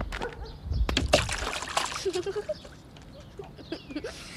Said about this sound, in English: Are you afraid? Of a mud puddle? Of course not. I'll need a running start, but watch this.